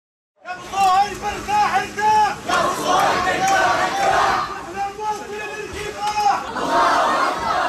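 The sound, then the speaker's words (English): A large crowd chants and shouts in a funeral procession moving through the streets of Gaza City. Many voices rise and fall in loud, dense waves, continuous throughout. “That is the sound of a funeral procession moving through Gaza City today.”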